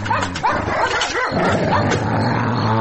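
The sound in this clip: Dog barking in repeated loud, sharp barks and higher yips, with a few whimpering notes, over a steady low hum throughout.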